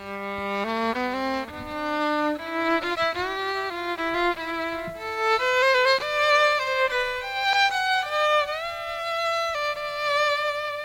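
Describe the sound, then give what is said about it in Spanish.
Bowed notes from a half-built electric violin that sounds like an ordinary violin, carrying a continuous melodic line of sustained and gliding tones at steady loudness, played alone without any talk. “pues prácticamente suena igual que un violín normal.”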